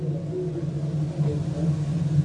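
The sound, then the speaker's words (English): Engine rumble of a tow truck towing a taxi with a flat tire, a steady low droning hum that holds fairly even throughout. “Here comes a tow truck towing a taxi. See the flat tire? Beep, beep.”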